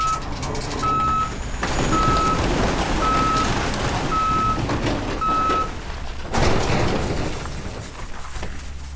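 A garbage truck reverses to dump trash, giving five evenly spaced high reversing beeps over a loud, steady engine rumble, with a brief burst of harsher noise near the end.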